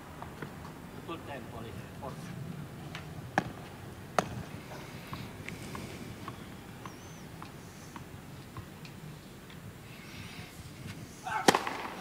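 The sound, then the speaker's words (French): Hard-hit tennis first serve during a match: a few sharp, dry ball strikes crack out over a murmuring voice and low background noise, the loudest pop coming near the end. “Et voilà une magnifique première balle claquée qui permet à Koboli de repasser devant 2, jeu 1.”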